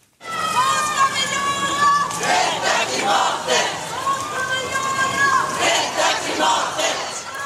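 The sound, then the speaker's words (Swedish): Crowd chanting together at a climate demonstration, many voices joined in loud rhythmic shouts that stay steady and full for the whole stretch. “Så här lät det under delar av demonstrationen.”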